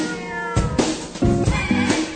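A pet cat meows a few times in quick succession, each call tonal and drawn out with a slightly strained, whining edge, loud and clear over a low background hum with no talk.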